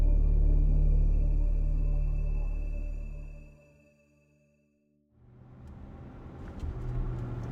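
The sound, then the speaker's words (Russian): A bus drives across a frozen river, its engine a loud, low droning rumble that slowly fades to near silence. A rougher, hissing rumble then builds again and grows louder toward the end. “Автобус ехал по льду реки.”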